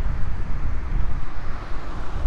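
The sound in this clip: A truck passing outside, heard as a steady, fairly loud low rumble with broad roaring noise. The sound swells and eases slightly across about two seconds, with no voices.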